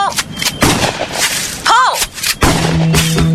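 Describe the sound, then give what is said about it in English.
A few loud gunshots from target shooting at boy band CDs, sharp bursts separated by short pauses. “Sorry, just target practicing on some boy band CDs.”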